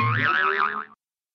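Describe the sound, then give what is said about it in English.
A springy cartoon boing for a bouncing ball, one wobbling, warbling tone that holds for just under a second before cutting off into silence. “Ball.”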